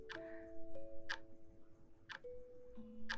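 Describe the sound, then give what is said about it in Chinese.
A pendulum wall clock ticking outside the room, its gears turning: four crisp, evenly spaced ticks about one second apart, faint against a quiet background with a soft steady tone beneath. “嘘，外面的挂钟在滴答滴答地走，”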